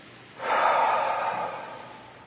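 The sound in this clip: Deep breath drawn in during a guided group breathing exercise: one long, airy hiss that swells quickly, holds, then slowly tapers off, with no talking.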